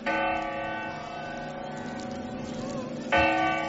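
Clock bell chimes strike in the New Year with a bright, ringing tone. One strike sustains and fades gently before a second strike rings out near the end.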